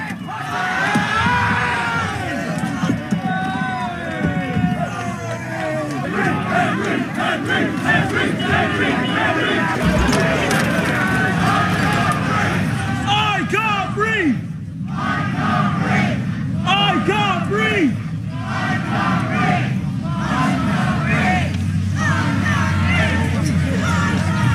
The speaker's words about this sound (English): outside Southampton's Central Police Station, several hundred protesters gathered, and you can hear some of them chanting, "I can't breathe,"